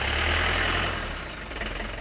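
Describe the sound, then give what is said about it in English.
Heavy truck engine idling as trucks arrive at a wholesale food market after midnight, a steady deep rumble with a low throb that eases slightly in loudness toward the end. “After midnight, trucks begin to roll into Rungis from all corners of Europe.”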